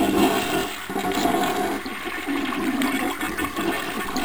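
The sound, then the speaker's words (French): A toilet flushing: loud, continuous rushing and gurgling water that churns steadily throughout, with no voices. “ne pensez surtout pas qu'il suffit de tirer la chasse”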